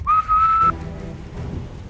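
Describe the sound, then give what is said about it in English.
A person whistles to imitate a whistle blown by a Cheliax Marine junior officer. A short, bright, steady tone is cut by a brief break and lasts under a second, then goes quiet. “and you see looks like a junior officer, Cheliax Marine, and as he sees a few of you guys, just brings up a whistle to his mouth real quick and goes,”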